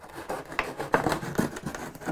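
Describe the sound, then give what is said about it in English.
Cutting strokes through the glued back where a sticker was, heard as a series of short, rasping scrapes in an uneven rhythm, moderately faint. “So what I'm going to do is cut off the back.”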